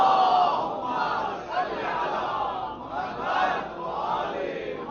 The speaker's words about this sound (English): Second louder salawat, inshaAllah.